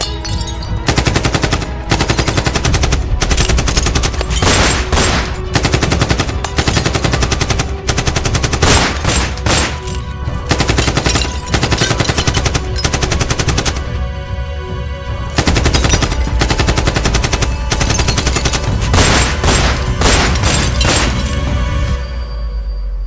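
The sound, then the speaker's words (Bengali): Loud gunfire rings out in repeated bursts of rapid automatic shots, many rounds in each, broken by short pauses and continuing for over twenty seconds. “গুলি চলছে গুলি শুয়ে পড়ো সব ভাই”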